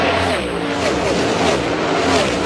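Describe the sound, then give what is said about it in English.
Race cars roar past at high speed, a loud, continuous engine whine and rush of noise that holds steady without a break. “But seeing the cars go by and just seeing like the ridiculous speed in person was insane. We have some of that.”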